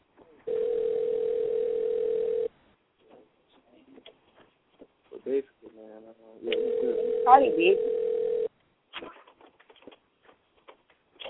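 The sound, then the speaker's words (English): Ringback tone of a phone call that goes unanswered: two long, steady, mid-pitched buzzing tones of about two seconds each, separated by a quiet gap with faint talk. “Yeah, probably busy because he's not answering the phone.”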